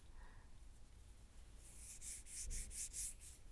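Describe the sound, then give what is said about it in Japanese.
Faint rubbing of a carrot: near-quiet at first, then a quick series of short, dry scraping strokes in the second half. “この音聞こえる？これは人参さん。”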